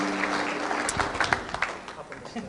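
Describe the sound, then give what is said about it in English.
A church audience claps together to welcome visitors: a dense wash of many hands with a few sharper claps standing out, holding steady and easing slightly toward the end. “Our church family are going to put their hands together for you and welcome you while we deal with that.”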